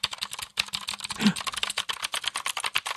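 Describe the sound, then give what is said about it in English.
Fast, steady typing on a clicky mechanical keyboard with Gateron blue switches, a compact board, producing many sharp, crisp key clicks in an uneven but continuous patter, fairly quiet and with no talk. “it's a mechanical keyboard, so it's a clicky. It's using these blue switches that are like Cherry Blue switches. It's Gateron, so it's like a knockoff of the Cherry switches.”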